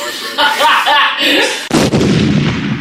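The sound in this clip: A bomb explodes in a video game: a sudden loud blast with a rumbling tail comes after a stretch of excited voices talking.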